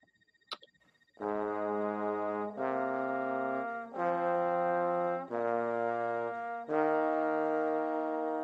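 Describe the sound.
Trombones 2 and 4 with a noticeably louder bass trombone holding five sustained low brass chords in turn, each shifting pitch, after a brief click at the start.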